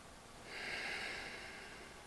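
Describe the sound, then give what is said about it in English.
A single soft breath drawn in through the nose, airy and faint, swelling from low background hiss and fading over about a second. “I notice my next breath.”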